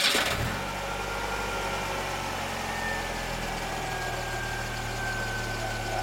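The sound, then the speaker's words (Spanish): A car engine starts with a brief loud burst, then settles into a steady, low, rumbling idle. “Voy a arrancar en el carro ya.”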